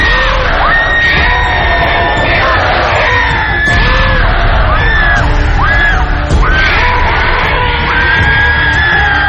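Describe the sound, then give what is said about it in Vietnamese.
A demon screams and howls in a horror ghost-story drama, with loud, continuous shrieking yells that rise and fall in pitch throughout. “Nó cứ gào thét tiến tới Linh một cách dữ tợn.”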